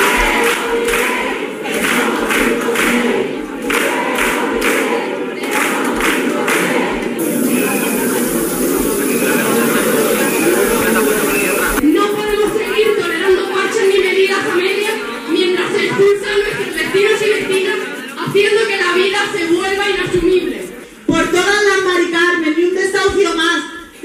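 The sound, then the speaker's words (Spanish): A crowd at a protest against the housing business, gathered at the doors of the government subdelegation office in Huelva: loud, continuous massed voices and shouting fill the whole stretch without a break. “Y seguimos recorrido en Huelva, concentración contra el negocio de la vivienda a las puertas de la subdelegación del Gobierno con estos sonidos.”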